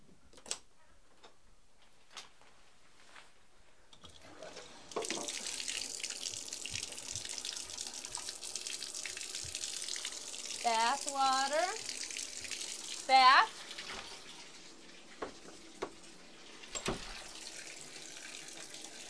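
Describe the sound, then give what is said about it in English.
Tap water running into a bathtub: a steady, moderately loud hiss starts after several quiet seconds marked by a few faint clicks, with brief vocal sounds over it. “Mommy's gonna go turn on the bath water.”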